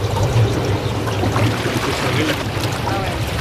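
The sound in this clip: Jacuzzi water bubbles and trickles at a retreat above Lake Maggiore, a steady, fairly loud wash of churning water that holds even throughout.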